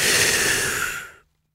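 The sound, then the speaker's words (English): A deep, drawn-in breath: one long, loud, airy rush of breathing that lasts just over a second and then cuts off into silence. “Until you breathe it all in.”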